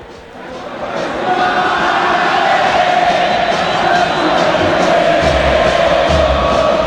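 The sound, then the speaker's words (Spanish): Crowd chanting from River Plate supporters at the Monumental stadium after the team lost again, a massive, sustained roar of voices that swells within the first second and then holds loud and unbroken. “Este es el clima del Monumental. Así suena hoy el Monumental, así suena la cancha de River.”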